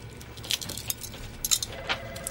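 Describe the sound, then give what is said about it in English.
Shell of a hard-boiled egg being peeled in a workplace, heard as faint crackling with a few small, sharp snaps over a low steady hum. “At this point, Dwight is peeling an egg.”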